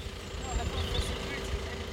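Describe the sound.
A car engine idles with a steady low rumble and a constant faint hum, while voices talk over it.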